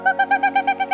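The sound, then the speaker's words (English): A woman ranger imitates a strange bird call with her voice, giving a rapid, even run of short, bright hooting pulses that repeat steadily, heard alone. “The lady was making the strange bird call.”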